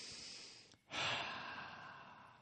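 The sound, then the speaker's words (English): A person breathes in and out slowly: a faint, airy hiss that briefly drops away, then swells into a fuller breath that tapers off gently. “Breathe in. And out. Breathe in and out.”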